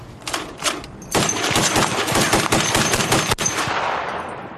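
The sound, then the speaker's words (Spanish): Six .50 caliber Browning machine guns fire together from a jet-era fighter plane: two short bursts, then a long, loud, rapid rattling stream of shots that cuts off and leaves a fading roar. “Al disparar las 6 ametralladoras a la vez, sentías el tirón. El avión frenaba por el retroceso que todo el avión absorbía.”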